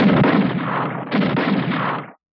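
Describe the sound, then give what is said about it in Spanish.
Two rifle shots, each a loud, broad, roaring blast that swells and lingers for about a second before cutting off abruptly. “¿Qué fue eso? ¿Un disparo? ¿Qué sucede allá afuera? Disparos de rifle hacen reaccionar violentamente a Paolo Pasoli.”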